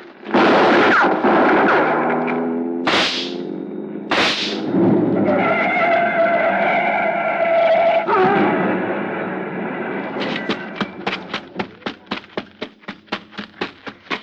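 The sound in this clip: Gunshots ring out at a fleeing man climbing into a car in dim light: a few loud, sharp blasts early on, then a rapid, evenly spaced series of many cracking shots toward the end.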